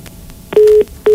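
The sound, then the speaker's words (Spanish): After a phone call cuts off, the line plays its tone: two steady, low electronic beeps separated by a short gap, the second one cut short. No one speaks. “parece que se cortó ahí la llamada de nuestro compañero Antonio”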